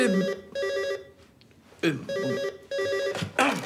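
Telephone ringing, an electronic ring tone repeating in a series of short, evenly spaced bursts with clear bright tones, loud and with no talk over it.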